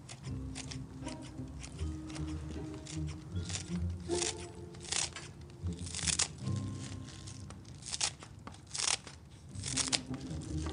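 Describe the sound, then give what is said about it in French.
Scissors snip through a handful of chives, cutting them into thin strips one or two millimetres wide, with many crisp, irregular crunching cuts that run on throughout. “Et de l'autre, découpez-les avec une paire de ciseaux en fines lamelles d'un ou deux millimètres.”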